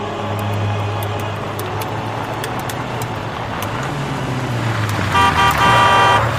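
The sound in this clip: A car drives along with a low, steady engine hum whose pitch rises and falls midway. A short tooting, horn-like tone joins near the end as the sound grows slightly louder.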